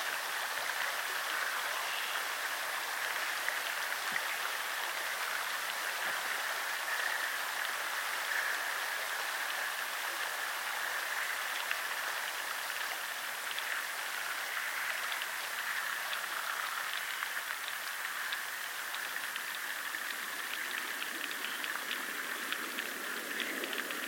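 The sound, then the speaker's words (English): Water rushes in a river, a steady, faint hiss of flowing water that stays even throughout without breaks. “Water rushing, leaves brushing the rippling water below.”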